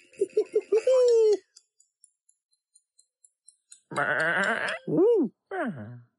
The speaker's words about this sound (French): Oh, pauvres moutons, il faut leur construire quelque chose à eux aussi.